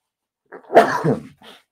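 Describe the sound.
A single human sneeze: a brief breathy lead-in, then a sharp voiced burst that trails off, followed by a faint short sound. No talk.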